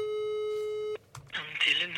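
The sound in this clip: A telephone ringing tone sounds while someone calls a hotel: one steady, even electronic tone holds for about a second and cuts off abruptly. A voice then begins speaking.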